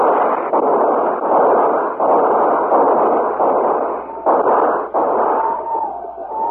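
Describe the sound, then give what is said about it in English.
Loud, sustained gunfire from volleys of rifles during a battle with attacking Apaches, overlapping blasts merging into a dense, roaring barrage with only brief breaks. “Hold your fire. Now hold it. Fire!”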